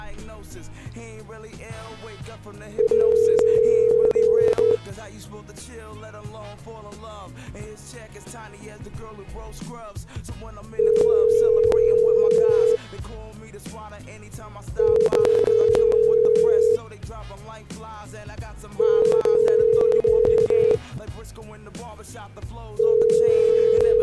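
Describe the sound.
Telephone ringback tone on an outgoing call before it reaches voicemail: a low, steady tone pulses five times, each burst about two seconds long with longer gaps between and the last one cut short, over a busy background.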